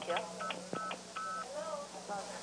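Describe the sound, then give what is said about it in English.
Telephone keypad tones sound as an operator keys a number: several short dual-tone beeps in quick succession, faint and mixed with quiet talk. “In this example, you can actually hear MFs associated with her keying the numbers. Most of the time you didn't hear the tones, however. Here, she keys 9000-START.”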